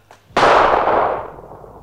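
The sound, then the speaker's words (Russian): A single loud gunshot fired into the air as a radio drama effect, a sharp crack followed by a long, fading boom. “Да зачем же ты стрелял, Аким? Да я в воздух.”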